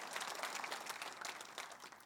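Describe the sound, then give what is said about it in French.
Applause from a church audience during a service, a quiet, steady wash of many hands clapping with no distinct individual claps. “Come on, une bonne main d'applaudissement.”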